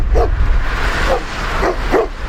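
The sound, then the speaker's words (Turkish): Dogs fighting in the street bark and yelp in four short, sharp bursts, unevenly spaced over a continuous rumbling background noise. “Köpekler birbirine girdi, paniğe yol açtı.”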